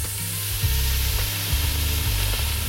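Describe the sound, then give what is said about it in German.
Bacon sizzling as it fries in a large pot, a steady, dense hiss of frying fat that runs unbroken through the whole clip at an even level. “Da kommt jetzt rein der Speck. Der wird jetzt erstmal schön ein bisschen angebrutzelt, angebraten.”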